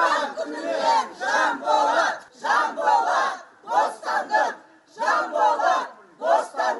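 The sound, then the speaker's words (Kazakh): A crowd outside a prison chants a freedom slogan for a jailed journalist. Many voices shout together in rhythmic bursts, repeating the phrase with short pauses between rounds. “Жиналғандар Жанболат бостандық деп ұрандатып тұр.”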